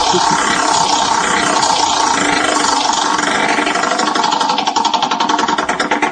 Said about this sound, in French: on fait tourner la roue des prénoms.